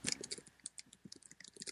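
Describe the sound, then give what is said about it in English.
Faint clicking of a computer mouse or keyboard: many quick, light, irregular clicks tapping away at a low level. “I hear you clicking away.”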